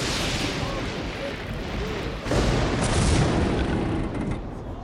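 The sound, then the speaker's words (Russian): A lightning strike splitting a wooden idol: a loud, dense roaring rumble that surges abruptly partway through, then holds as a heavy crackling roar before easing slightly at the end. “Ударившая молния раскалывает идол Перуна. Горевший перед идолом огонь тухнет, Крив же”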